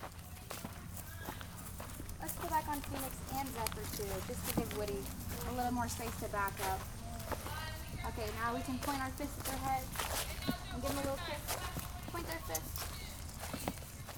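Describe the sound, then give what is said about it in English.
Hooves of an old mare clip-clop in a steady walking rhythm during a camp trail ride with a camper on her back, many soft regular thuds running faintly under people talking throughout. “Shiloh is actually the oldest horse in the Towers barn. Her favorite thing to do is to help campers feel comfortable while they learn about themselves and the gospel, all while riding on her back.”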